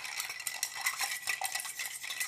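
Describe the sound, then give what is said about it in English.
A bar spoon stirs a cocktail in a mixing cup. A steady stream of many light, bright metallic clinks and scrapes runs throughout, and no one talks. “once you combined all your ingredients into our handy dandy mixing cup here, we're gonna go ahead and stir it with our bar kit.”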